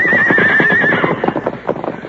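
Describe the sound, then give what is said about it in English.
Horses being unhitched neigh with a high, wavering whinny lasting about a second, over steady clip-clop hoofbeats that continue on their own afterward. “Meanwhile, Dirk finished unhitching the horses.”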